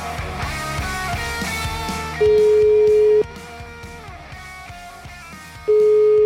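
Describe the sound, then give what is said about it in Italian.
Ringback tone of a telephone call being placed: two steady, buzzing tone bursts about a second long, sounding over busy background music. “Chiamiamo Semproni, vai!”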